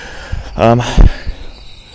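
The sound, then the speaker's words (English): A single short frog call, a buzzy croak with stacked harmonics, stands out briefly against a quiet background with a few faint low thumps. “That's a frog of some kind,”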